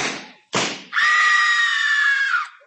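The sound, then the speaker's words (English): A piercing, sustained scream from a radio mystery drama holds steady for over a second and a half, loud and alone, after two short noisy bursts. “Holy smoke! Gracie is being murdered! Gracie, what happened? Nothing, dear. I'm listening to my favorite radio mystery, The Tall Man.”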